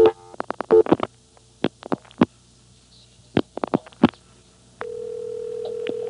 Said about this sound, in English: So I'll start dialing 4-1 things, like 4-1-2.